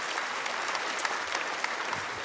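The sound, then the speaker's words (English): An audience in a church applauds with steady, dense clapping that holds at an even, fairly loud level throughout. “you can applaud for that, by the way. Go. That's your cue. Go.”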